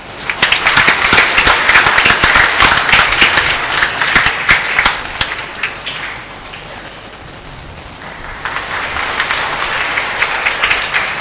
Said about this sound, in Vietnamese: Xin cộng đoàn vỗ tay chúc mừng.